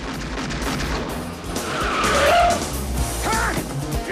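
A four-wheel drive car drives off with a broad engine and road roar that swells toward the middle. A brief tire squeal rises out of the noise, and a second short squeal follows near the end.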